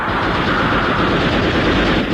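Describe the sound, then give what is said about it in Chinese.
Gunfire sound effect from a battle scene in a radio drama, with machine-gun fire in the scene, heard as a loud, dense, continuous roar of shots with no single bangs standing out and no talk. “鬼子越来越近了，刘红端起机枪要冲。 打！ 李正起身制止，不料自己胸口中了子弹。”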